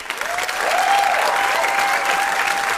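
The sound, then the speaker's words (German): Live audience applause at a quiz show, steady dense clapping that swells slightly and holds at an even loud level for about three seconds, with a faint whistle-like tone running through it. “Euer Applaus!”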